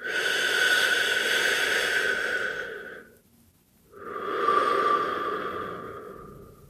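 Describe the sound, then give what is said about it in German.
Deep, slow breathing during a guided relaxation exercise: one long, airy breath, then a short silent pause, then another long breath that fades gradually, a soft, steady hiss of air with no talking. “Mach nochmal zwei Atemzüge.”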